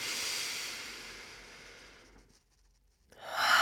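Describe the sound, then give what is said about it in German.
A deep inhalation during a guided breathing exercise, a long airy hiss of breath that softens over about two seconds, then a brief silence before another breath begins. “Und jetzt atme tief ein.”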